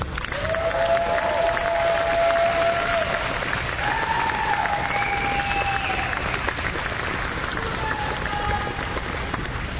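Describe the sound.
Audience applause welcoming a speaker at Paul Fest: a dense, steady roar of clapping that holds evenly for about ten seconds at a fairly low level.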